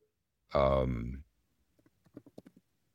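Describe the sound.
Someone types on a computer keyboard in a short, quiet run of light, quick clicks, after a brief vocal sound.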